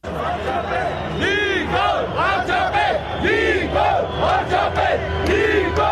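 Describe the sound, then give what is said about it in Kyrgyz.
A large crowd of thousands of demonstrators protests in a street in Armenia, with loud, continuous shouting and rising cries over a dense, steady roar of voices. “Никол Пашинян миңдеген демонстранттарды баштап кайрадан көчөдө.”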